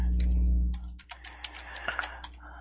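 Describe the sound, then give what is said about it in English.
Typing on a computer keyboard: a low steady hum fades out within the first second, then a run of soft, irregular key clicks follows. “I have to type this out.”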